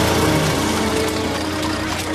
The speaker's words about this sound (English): The foursome motors past.